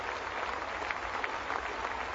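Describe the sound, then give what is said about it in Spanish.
Dense, sustained applause from a packed tennis stadium in Paris as the crowd gives Serena Williams an ovation during a trophy ceremony. The clapping stays steady and even throughout. “Sigue la ovación para Serena Williams y nos toca.”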